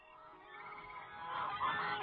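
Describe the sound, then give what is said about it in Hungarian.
Startled ducks quack on dark water at dusk among fir trees. The calls are faint and nasal, grow a little louder toward the end and come alone, without voices. “A kacsák. Feliesztettem a kacsákat.”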